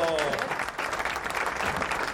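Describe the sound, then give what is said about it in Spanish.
Studio audience applause greeting a guest arriving on a live television show. The dense, steady clapping runs throughout while voices talk over it. “Allá para allá, el aplauso enorme para Alfonsina. Bienvenida en vivo.”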